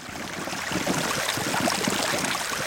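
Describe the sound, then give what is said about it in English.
A meltwater river runs across the top of the Greenland ice sheet during summer melting, a steady, dense rushing of flowing water that stays even and continuous throughout. “It is a river, but it's on top of an ice sheet. That's the sound of the Greenland ice sheet melting this summer.”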